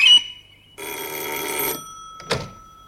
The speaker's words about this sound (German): Telefon